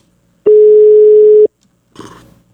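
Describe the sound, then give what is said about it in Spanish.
A flat telephone tone sounds while a call is being dialed. The single steady tone is loud and lasts about a second, and a brief, softer burst of line noise follows after a short silence. “En este momento le estoy marcando al Capi Ramón Valverde.”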